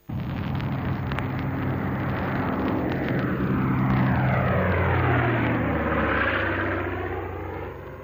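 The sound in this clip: Passenger airplane taking off: a loud, continuous engine roar with shifting whining tones that sweep in pitch, holding steady before slowly fading toward the end.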